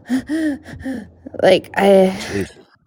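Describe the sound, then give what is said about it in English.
A voice imitates gasping for air in a medical emergency, with several short, strained, breathy voiced gasps in an uneven rhythm. They come in bursts with brief pauses between them. “I was like gasping for air”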